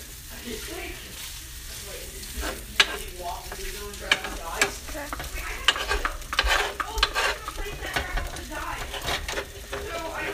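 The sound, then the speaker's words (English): Cheese is stirred into scrambled eggs in a hot pan, a steady sizzle with many irregular scraping strokes running throughout. “Now we're mixing the cheese with the scrambled eggs.”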